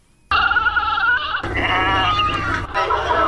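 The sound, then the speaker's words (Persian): Goats or sheep bleat at a livestock market in Kabul's 500 Family area before Eid al-Adha: a few loud, wavering bleats follow one another, with no talk. “در این گزارش با شماری از خریداران و فروشندگان مواشی صحبت شده. گزارش با صدای مواشی آغاز می شود.”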